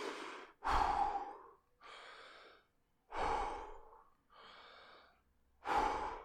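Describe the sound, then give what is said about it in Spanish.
Deep diaphragmatic breaths in a breathing exercise, taken at a steady, even rhythm. Stronger and softer breaths alternate, forming about three full cycles, and the breathing is heard alone without talk. “haces 30 respiraciones eh, con el diafragma, siempre con el diafragma, conscientes a este ritmo”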